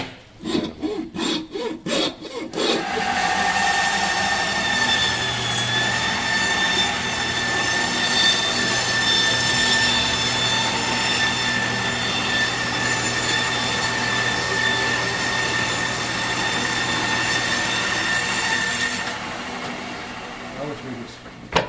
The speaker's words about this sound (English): now, I'm gonna make a saw cut down the breastbone here with the hand saw. And then the band saw is what we're gonna use to do to actually cut this in two.